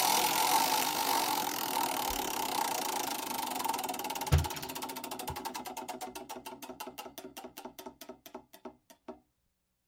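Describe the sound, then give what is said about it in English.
A prize wheel is spun to decide who goes first. Its clicking starts as a rapid blur, then slows steadily, with the clicks spreading further apart until the wheel comes to a stop and falls silent. “All right, I'll spin the wheel here. We'll see who goes first.”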